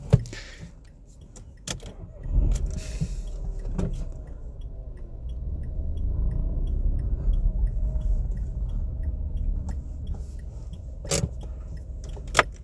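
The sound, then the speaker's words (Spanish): Low engine rumble of a car inching forward while waiting at a workplace exit, a steady deep drone that starts a few seconds in and holds, with a few sharp clicks near the start and end. “Entonces, bueno, he avanzado un poco el coche.”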